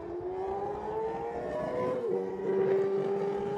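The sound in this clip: Racing sidecar outfit engines, Suzuki-powered, pull away in a race with a loud, steady, harmonic-rich drone that holds throughout, with a slight lift in pitch toward the end.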